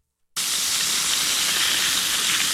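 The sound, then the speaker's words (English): A steak sizzles on a grill, bursting out of silence into a loud, unbroken, bright hiss that holds steady with no voices over it. “Yes, that is a sizzling steak, baby.”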